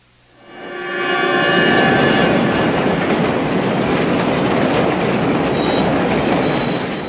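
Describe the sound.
Subway train rumbling loudly and steadily, a dense roar of wheels and carriages that swells in within the first second and holds, with faint high tonal whines near the start; no voices.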